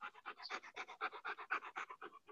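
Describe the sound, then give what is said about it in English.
A dog panting: many quick, breathy puffs in a steady, even rhythm, soft and continuous throughout with no other sounds. “can you hear the dog bark, breathing? Yeah. Panting.”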